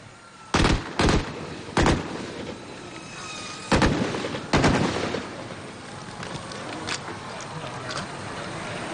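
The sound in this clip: Gunfire rings out during a military drill that combines climbing walls 1 m and 2 m high with applied shooting from various positions. Several loud, sharp shots come at irregular intervals, then a few fainter reports over steady background noise.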